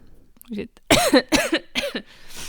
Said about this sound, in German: ich werde übrigens mein Husten nicht rausschneiden oder mein Räusper